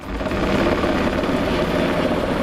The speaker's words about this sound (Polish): Policyjny śmigłowiec Black Hawk co kilka minut nabiera wody z pobliskiego zalewu i zrzuca ładunek nad płonącym obszarem.